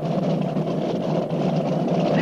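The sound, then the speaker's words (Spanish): Steady low engine rumble as a boat starts to move off, a continuous droning hum at an even level with no clear breaks or changes in pitch. “El barco comienza a moverse.”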